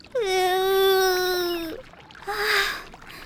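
Crying from a young girl: one long, sustained high-pitched wail, a short pause, then a briefer, breathier sob.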